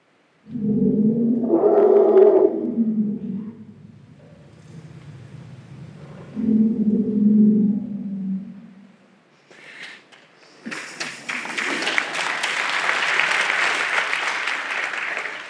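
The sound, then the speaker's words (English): Elephants call to celebrate a newborn calf: two bursts of deep, harmonic rumbling, each followed by quieter, lower calls, then a long, harsh, noisy blare that keeps going to the end. “Elephants, for example, have a specific signal for honeybee. So I'd love to share just one of these sounds with you. It was recorded at a moment of great joy and celebration, the birth of a new baby.”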